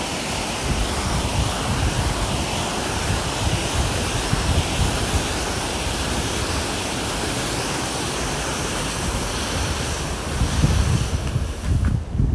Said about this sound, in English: Awesome, that was the sound of the canal. Feeling the energy of running water and all that.